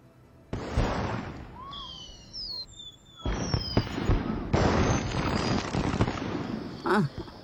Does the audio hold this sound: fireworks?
yes